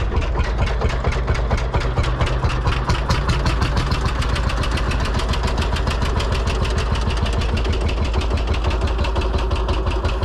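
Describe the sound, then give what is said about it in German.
A single-cylinder Lanz Bulldog tractor engine chugs in a fast, regular stream of low, thudding beats. It stays loud and even for the whole stretch with no pauses. “das ist doch ein Trecker. Ich glaube, das ist ein Lanz Bulldog. Das ist ein Einzylinder. Das ist dieses tuckernde Geräusch.”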